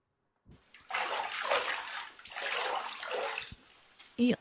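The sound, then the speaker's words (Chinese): Bath water sloshes and splashes in a narrow bathtub. The faint, rushing wash comes in two long surges and ends with a brief louder burst. “要和妈妈一起洗澡，浴缸这么窄，一起洗澡的话，很容易碰到对方的。”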